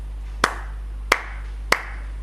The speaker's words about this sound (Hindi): मैं 3 बार ताली बजाता हूं